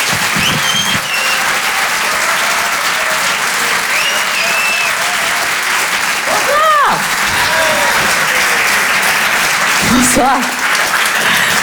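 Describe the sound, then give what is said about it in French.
Sustained, loud applause from a comedy-show audience as a comedian is introduced, a steady wash of clapping throughout with a few shouts rising above it. “On peut l'applaudir très fort, Alexis Tramoni sur Rire et Chanson.”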